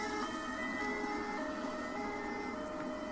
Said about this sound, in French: C'est la sirène qui fait des bruits, c'est pour ça qu'on ne t'entend pas bien.